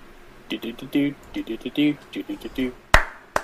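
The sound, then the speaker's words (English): A single sharp hand clap cracks out near the end, loud and abrupt, after a stretch of someone talking. “Sorry, I had to clap.”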